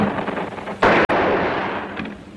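A single sharp, loud gunshot cracks out in the middle of battlefield fire, over a constant rough roar of wartime noise.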